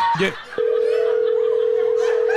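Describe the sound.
Telephone dial tone after a call is hung up: a brief click, then a steady, unbroken mid-pitched tone holding at an even level to the end.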